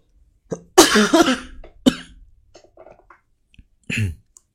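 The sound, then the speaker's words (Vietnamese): A person coughing hard: a few harsh, raspy bursts, one longer rough fit early on, a sharp single cough after it and a final cough near the end, with brief quiet gaps between. “Đấy, vẫn ho lắm.”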